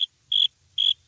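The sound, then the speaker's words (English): Crickets chirp in three short, high, evenly spaced trills with silence between them. A faint low rumble runs underneath. “It's kind of funny, too, when you think of crickets like as, you know, the sound you hear when like a joke doesn't land.”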